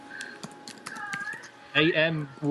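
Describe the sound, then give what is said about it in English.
Computer keyboard typing as a name is entered into a search: a few quick, sharp key taps, then voices talking over the end. “Just type in Amy Steele.”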